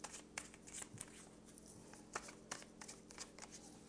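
Tarot cards are shuffled and drawn by hand, making faint, quick riffling flutters and soft papery snaps in an uneven run of many short bursts.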